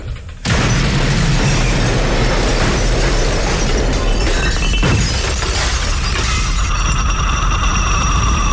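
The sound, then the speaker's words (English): An exploding radio: after a brief quiet, a sudden loud blast gives way to sustained roaring, crackling and shattering noise that lasts several seconds. “The radio's exploded.”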